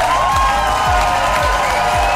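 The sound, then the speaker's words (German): Steady, dense applause fills a German entertainment award ceremony in Mülheim, with faint crowd cheering mixed in. The clapping holds an even, loud roar throughout the short clip. “großen Applaus gab es unter anderem für die Formate Heute Show Extra und für das ARD-Reality-Format Werwölfe”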